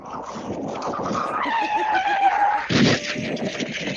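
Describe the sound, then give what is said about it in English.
A caller's voice imitates a car crash over the phone: a long, wavering, high tire-skid screech, then a sudden loud, harsh crash burst near the end that trails off into a thinner tone. “Somebody do car crash.”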